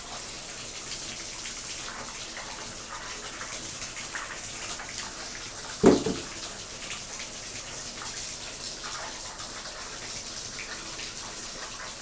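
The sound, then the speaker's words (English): Water runs from a tap as hands are washed under it, a steady rushing hiss that holds throughout, broken by one brief knock near the middle. “Hold on. It's hand washing time.”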